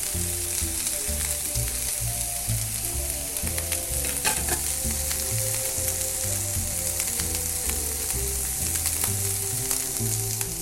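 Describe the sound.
Food browning in a frying pan, a steady, loud sizzle with dense crackling and spitting that continues without pause.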